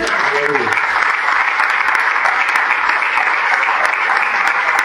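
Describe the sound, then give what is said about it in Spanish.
An audience applauds at a church service in Chile, with steady, sustained clapping that holds an even loudness throughout. “Un aplauso al Señor.”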